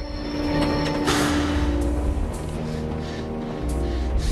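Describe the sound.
A train braking to a halt, with a heavy, low rumble under steady metallic whining tones and a brief burst of hiss early on, sustained throughout.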